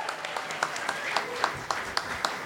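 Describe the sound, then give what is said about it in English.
An audience applauds to welcome a volunteer coming up to the stage: a steady wash of clapping runs throughout, with sharper individual claps standing out at fairly regular intervals. “Let's give this person a nice hand.”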